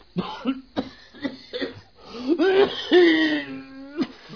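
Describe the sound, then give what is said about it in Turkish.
A fit of harsh coughing from an ailing person: a run of several short, sharp coughs, then longer strained, wheezy coughs with a raspy voiced edge, loud and alone. “Bak öksürüyorsun.”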